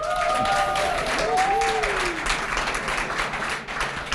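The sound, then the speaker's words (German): An audience applauds the Gessungshausen men's choral society at a Christmas-season event. Steady, full clapping lasts the whole clip, with a short whistle-like tone rising over it near the start. “Ein Männerchor ist mit dabei. Der Männergesangsverein aus Gessungshausen. Für die auch mal einen Riesenapplaus.”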